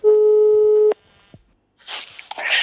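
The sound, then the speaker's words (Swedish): A telephone ringing tone sounds while a call is placed, one steady, loud, pure beep lasting nearly a second, then a brief quiet gap before a burst of rough noisy sound. “Kan vi inte bara ringa upp Bingo?”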